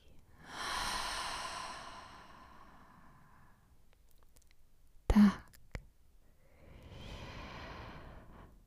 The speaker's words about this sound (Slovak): A ešte jeden nádych. A výdych.